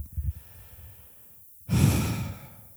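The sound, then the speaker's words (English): A person takes a deep breath to calm down: after a quiet pause, one loud, airy rush of breath lasting under a second, then trailing off. “I'm getting worked up here. Deep breath.”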